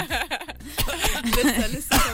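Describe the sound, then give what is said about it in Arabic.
A choking coughing fit: a few harsh, breathy coughs mixed with snickering laughter. “سمعت الرقم جات لي كرشه نفس.”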